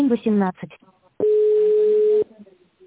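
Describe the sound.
A telephone tone while a call is being transferred to an extension, a single flat, loud, mid-pitched tone lasting about a second, preceded by a brief voice.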